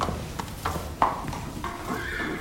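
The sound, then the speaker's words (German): A horse on a farm, heard as a few irregular hollow knocks and shuffling noises over a steady low background rumble, with no talking. “Dumm genug, dass ich mir heute ein Pferd von Mrs. Bush ausleihen muss.”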